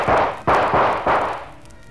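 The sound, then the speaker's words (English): Gunshots fired from a gun: three sharp, loud bangs, each followed by a decaying rumbling tail, spaced about half a second apart with no voices. “You missed me, Joker. Now your gun is empty.”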